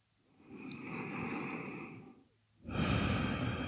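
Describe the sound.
Deep breaths drawn into the lower belly during a guided relaxation. Two long, soft, airy breaths are separated by a short quiet gap, and the second is louder and fuller.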